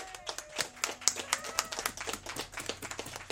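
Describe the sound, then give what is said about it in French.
Audience applause opening a live evening comedy show: many irregular, crisp hand claps from a modest crowd, rising and falling in loose bursts without a steady rhythm. “s'il vous plaît, mesdames, messieurs, on peut applaudir Isabelle Sasseville maintenant.”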